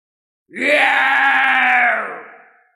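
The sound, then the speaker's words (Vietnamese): A monster lets out one loud roar as an audiobook sound effect: a harsh, growling, strongly voiced cry that swells quickly, holds steady for about a second and a half, then fades away, with no talking. “Một tiếng gào lớn khiến sương mù màu đen dâng trào, chiếc quan tài ở phía sau hoàn toàn nứt ra và một sinh vật đầy đáng sợ đuổi theo Thạch Hạo”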